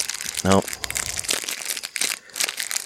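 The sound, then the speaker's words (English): A cellophane wrapper crinkles and crackles as it is unwrapped. The bursts are irregular and sharp, coming one after another in quick succession across the whole clip. “You know, the cellophane company should sponsor this unwrapping.”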